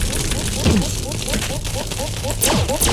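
Sizzling, crackling hazard sound from a video game as the character falls in, a steady noisy fizz with a few sharper bursts throughout.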